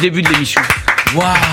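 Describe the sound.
A woman applauding herself: a few sharp claps break through lively talking and an excited exclamation.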